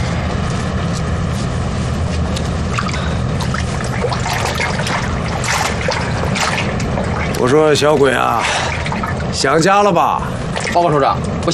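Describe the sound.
Water pours and trickles continuously as it is readied for a commander to wash his face, a steady splashing flow with brief voices heard over it toward the end.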